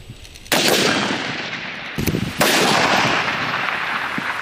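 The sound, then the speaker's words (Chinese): Gunfire from sniper rifles during an army brigade's live-fire sniper assessment, with shooters firing from poles, ropes, rooftops and fortifications: three loud sharp cracks, each followed by a long, rumbling decay, without talk. “在狙击科目考核现场，队员们依托电线杆、绳索、屋顶、工事等场景，借助救变器材自主选用射击姿势，打击各类目标。”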